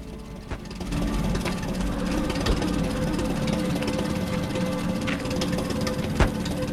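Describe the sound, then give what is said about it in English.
An old, grimy petrol-powered generator drones steadily, its low engine rumble running continuously with a few faint sharp knocks along the way. “Rounding the corner of a house, he discovers a spluttering petrol-powered generator.”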